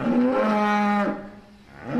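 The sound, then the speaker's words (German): A dairy cow moos during milking time, one loud, long, low drawn-out bellow rich in harmonics, fading after about a second before a second moo begins. “Diese Kuh formuliert ihren Unmut und das während der Melkzeit.”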